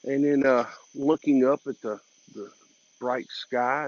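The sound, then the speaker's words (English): Crickets chirp outdoors at night beside a street, a thin, steady high-pitched trill running unbroken beneath a person talking. “sitting out on the side of the street and just staring at cars coming by and listening to the crickets chirp or chirp, or however you say they make their sound.”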